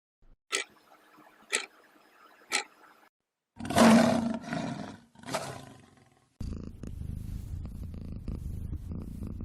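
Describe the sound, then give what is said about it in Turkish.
A domestic cat purring and a lion roaring, heard in turn: two loud, deep, drawn-out roars and a low, continuous rumbling purr, plus a few short rhythmic bursts. “Bu seslerden hangisi daha kalındır? Yani frekansı daha düşüktür. Kedi mırlaması mı yoksa aslanın kükremesi mi?”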